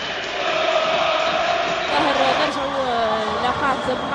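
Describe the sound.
Applause from a crowd of about 30 supporters at an Étoile du Sahel versus Espérance match rises as a steady, dense patter that holds for the whole stretch beneath a talking voice.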